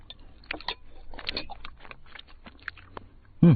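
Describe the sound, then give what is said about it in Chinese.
A person eating a meal, with many soft, crunchy chewing and biting sounds in an irregular rhythm, fairly quiet throughout. “瞧你啊，吃这么多”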